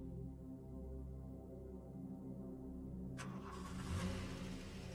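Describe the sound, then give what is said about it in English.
A car with a crumpled front end drives away on a New York street: a faint, low engine hum runs steadily, then a burst of broader hiss and noise joins as the vehicle pulls off. “Car drives away.”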